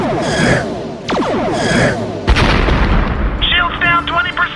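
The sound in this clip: Spaceship weapons firing in a sci-fi comedy space battle: a few heavy booming blasts mixed with bright, zapping electronic bursts, loud and fairly dense.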